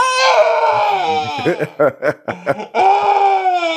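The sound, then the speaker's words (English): A voice imitates men screaming: a loud, drawn-out wail sliding downward in pitch, broken by choppy, laugh-like pulses, then another long sustained cry. “those men screaming”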